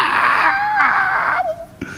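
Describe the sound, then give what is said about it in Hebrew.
A baby cries while being bathed and scrubbed with soap, giving high, wavering wails that hold for over a second before breaking into shorter, fading sobs. “והוא בוכה.”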